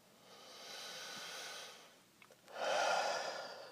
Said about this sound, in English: Slowly close our eyes and take three deep breaths in through the nose, out through the mouth.